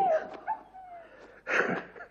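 A pet hunting dog named Milka whimpers with a high, thin whine that slides downward, then gives short yips and a louder bark-like burst near the end.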